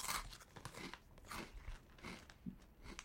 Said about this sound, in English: Let's see how Flaming Hot they are. You know, I think I've gotten really used to heat. Well, here, I mean, let's just see if I can.